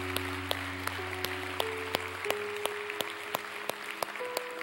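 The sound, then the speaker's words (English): Applause during a church service welcoming new members. Sharp, fairly regular claps ring out over sustained keyboard chords that shift in pitch partway through, with the clapping kept light beneath the music. “Can we put our hands together this morning and welcome some new people into God's family?”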